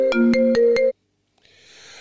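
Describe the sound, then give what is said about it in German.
A phone ringtone signals an incoming call: a bright, melodic electronic tune with a steady pulsing beat that cuts off abruptly after under a second, followed by silence and then a faint hiss. “Jetzt ruft mich natürlich prompt die Sonja an.”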